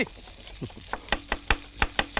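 Onions are chopped fast with a knife while cooking, heard as a series of sharp, crisp knife-on-board taps in a fairly steady rhythm. The taps are softer at first and clearer toward the end, with no talk.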